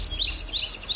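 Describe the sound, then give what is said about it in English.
Birds chirp in open countryside in northern Baltimore County, giving bright, high, repeated tweets that rise and fall in quick succession over a soft, steady low background, with no voices. “This is the sound of open space in northern Baltimore County.”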